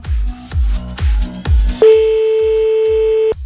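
A phone call is placed: after a few thumping low beats of music, a steady single-pitched ringback tone holds for about a second and a half while faint regular pulses continue beneath it.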